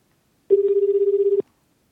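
An outgoing phone call rings back with a single burst of low, buzzing tone that pulses rapidly for about one second, then falls silent.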